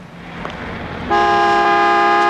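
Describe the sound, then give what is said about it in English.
A car horn blasts at a gas station during a quarrel over fuel stamps: one long, steady, loud tone that starts midway after a low idling rumble and holds to the end. “Keep leaning on that tooter, Charlie, and you're gonna get a shot in the mouth.”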